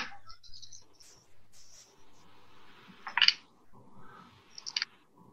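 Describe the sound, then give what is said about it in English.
Dice clatter in a tabletop game, rolled in sets of four from a large pool. Two short, bright rattling bursts stand out against a quiet background. “It's the curse of the too many dice. Okay. Yeah, I had to roll them in sets of four to get that one.”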